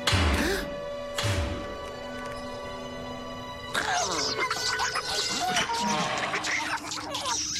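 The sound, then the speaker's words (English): A cage being opened by a rescue team: two heavy clanging crashes near the start, followed by a busy stretch of mechanical clatter and sustained tones. “You turn off the main power. I'll open the cage.”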